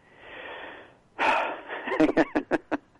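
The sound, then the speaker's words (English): A deep breath is drawn in as a soft, airy rush lasting about a second, then a louder breathy exhale, followed by a series of short voiced pulses. “I just took a deep breath.”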